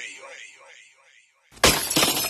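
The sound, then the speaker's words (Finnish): A car windshield shatters in a sudden loud crash of breaking glass with a bright, crackling spray of fragments, following a stretch of someone speaking. “Tuulilasi rikki”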